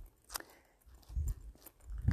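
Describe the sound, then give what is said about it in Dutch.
A few soft, crunching footsteps on a combined cycle and footpath, with dull low thuds and light scuffs at an unhurried walking pace. “Want ik loop hier over een uh, nou ja, fietswandelpad.”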